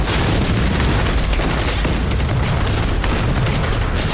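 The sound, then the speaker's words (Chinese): Sustained heavy gunfire and artillery from machine-gun and artillery companies laying down saturation fire on a defensive line. A loud, unbroken wall of crackling shots over deep booming rumble continues without pause. “机枪连、炮兵连重点加强一连防线火力，饱和打击。打。”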